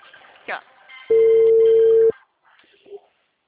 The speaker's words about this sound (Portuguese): Vou ligar de novo.